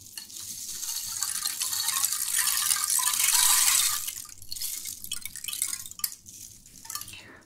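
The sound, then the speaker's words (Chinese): Water by the sea washes and hisses in a broad rushing wash that swells to its loudest near the middle and then eases, with splashy drips and bubbling scattered throughout and no talk. “虽然我不能每天都让你看见海，但是我可以带你听一下海边的声音。”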